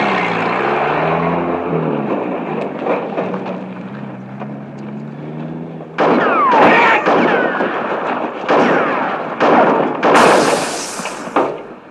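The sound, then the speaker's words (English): Sniper gunfire rings out in a compound. Several sharp, loud shots crack in irregular succession through the second half, after a low droning engine hum. “Attention! Sniper activity in the compound. It's really murder out there.”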